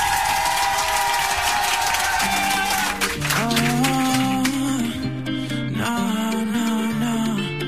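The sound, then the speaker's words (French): An audience claps and cheers as an act is introduced at a live show. Loud, dense applause comes first, then instrumental music with a bass line starts about two seconds in while the clapping carries on underneath. “Le public, faites du bruit, c'est la première fois”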